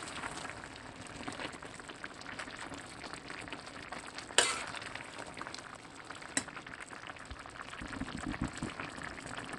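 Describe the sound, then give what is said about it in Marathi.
Softened brinjals are stirred in a pan as they cook, with a faint, continuous frying hiss and soft scraping, broken twice by a sharp clink of the spoon against the pan. “पंधरा मिनटं झालेली आहेत वांगी almost soft झालेली आहेत आता आपण व्यवस्थित वरखाली करून घेऊया”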